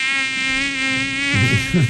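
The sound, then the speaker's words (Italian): A bee buzzes near an open window with a continuous, even drone that holds steady throughout. Its tone wavers and roughens slightly toward the end. “Ape. Scusa, vado a chiudere la finestra perché non è possibile.”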